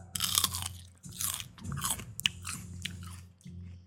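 Crunching like celery being chewed, used as the eating sound of a giant crab for a Halloween scare. Several loud, wet, crisp crunch bursts follow one another with short pauses, and no talking is heard.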